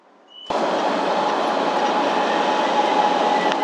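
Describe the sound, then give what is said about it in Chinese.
A metro train running between stations: a steady, loud rolling rumble starts abruptly after a quiet moment and holds evenly, with a faint high whine riding on top. “乘客您好，列车开往岩村东站方向，终点站是岩村东站。列车运行前方是稻田站。”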